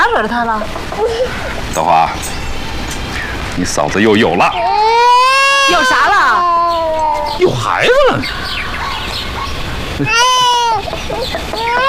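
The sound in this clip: A baby crying in a drama scene, with high, wavering wails that rise and fall in a few bursts while adults talk soothingly over it.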